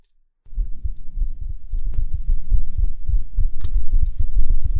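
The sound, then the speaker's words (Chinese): A heartbeat heard with a head resting on a lap: loud, low, muffled thumps repeat steadily after a brief silence and continue throughout with a soft throbbing texture. “躺在我腿上，给你听心跳。”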